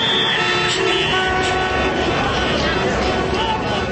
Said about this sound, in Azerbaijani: Maşınların siqnallarının səsi ətrafı başına götürüb.